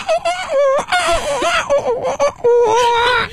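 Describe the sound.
A person imitates a rooster crowing with loud, drawn-out vocal calls that waver and glide in pitch, broken into several bursts with brief gaps between them.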